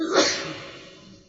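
A single sneeze: a sharp breathy burst that peaks at once and then fades into a soft trailing hiss.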